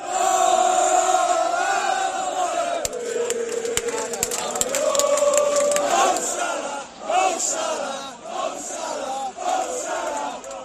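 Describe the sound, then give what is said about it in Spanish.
Liverpool football supporters chant in Barcelona city centre, a loud, sustained crowd of many voices singing in rhythm, with sharp percussive hits cutting through the middle of the chant. “Este es el sonido de hace unos minutos en el centro de Barcelona, aficionados del Liverpool.”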